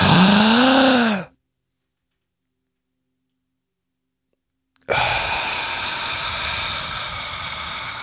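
Deep breathing during a guided breathing exercise: a short voiced, sigh-like breath, a silent pause, then a long, loud, steady rush of airy breath noise.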